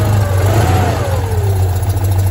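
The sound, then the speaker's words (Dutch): A small, cheap air-cooled car engine runs and is given throttle, producing a steady, loud low drone with a slight swell and dip in pitch, with no voices. “Luchtgekoeld motortje. Heerlijk, ja. Heerlijk. Hup, en hij valt stil. Typisch. Hier voor de deur staat er ook nog één. Ja, daar is hij terug. Oké. Even gas geven, meer gas geven.”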